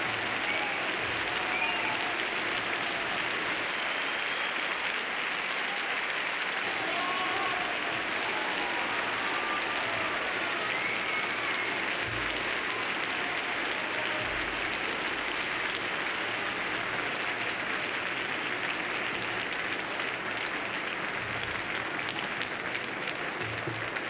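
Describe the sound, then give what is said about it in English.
A concert audience keeps up steady, dense applause, calling guest conductor Klaus Tennstedt back to the stage for bows, the clapping a continuous even roar with no pauses. “The audience is still calling our guest conductor back to the stage for bows.”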